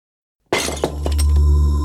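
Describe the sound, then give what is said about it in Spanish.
A plate breaking: after silence comes a sudden loud crash of shattering crockery, a second smaller impact close behind, then a ringing, clattering tail as the pieces settle. “Oh! He roto un plato.”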